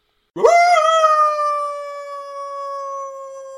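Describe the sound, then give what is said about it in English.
A dog howl sound effect in a ghost scene: one long, loud howl that swoops up at the start, then holds a steady, tonal pitch as it slowly fades, heard alone. “That's the dog howling.”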